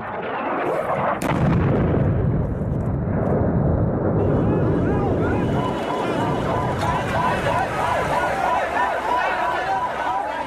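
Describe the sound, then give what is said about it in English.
Bombing and gunfire in Sana'a, Yemen's capital, during the war: a loud, dense roar of low booms and rumbling, with a sharp blast early on and people's voices mixed into the continuing din. “Sounds of Sana'a, Yemen's capital, early this month. The bombing, people collecting bodies, fighting fire.”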